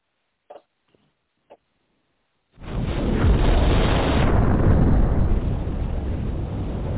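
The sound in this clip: A bomb explosion sound effect: three faint, brief clicks, then a sudden loud blast that swells into a heavy, sustained roaring rumble lasting to the end.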